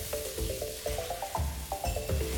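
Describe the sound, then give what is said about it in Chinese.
Thin dried tofu strips hit a hot wok over high heat with dried chili and garlic sprouts, a loud, continuous sizzle broken by repeated bursts of stirring and scraping. “干椒蒜苗爆香，豆腐丝猛火下锅，”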